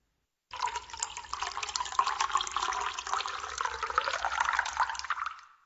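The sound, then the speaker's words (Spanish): Freshly filtered coffee is poured from a jar into a white cup. The liquid runs in one steady stream for about five seconds, and its pitch rises slightly as the cup fills. “Una vez terminado de bajar todo, retiró el embudo y vertió el líquido del frasco en una taza blanca.”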